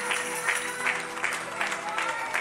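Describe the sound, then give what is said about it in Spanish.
A church audience claps at moderate volume in a steady rhythmic pulse of regular beats, as if clapping along, giving God a round of applause. “Aplauda la gloria de Dios. Begin to give him a round of applause.”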